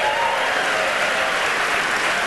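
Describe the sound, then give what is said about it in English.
An audience applauds at a live radio news quiz show recorded at the Studebaker Theater in Chicago, Illinois; thick, continuous clapping from many people holds a steady, loud level with no talk over it. “for every person applauding, the public radio fairy awards us $10.”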